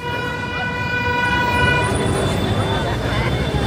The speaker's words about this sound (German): Für die meisten ist das hier die Hölle. Lärm, Schlaglöcher, schlechte Luft. Die vielbefahrenen Megastraßen im Zentrum von Mexiko-Stadt haben wenige Fans.